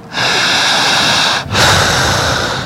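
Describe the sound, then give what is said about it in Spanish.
Deep, demonstrative breathing from a hypnotist showing an audience how to breathe: two long, loud, airy breaths separated by a brief pause, with no talk. “tendrán que respirar como yo lo pido.”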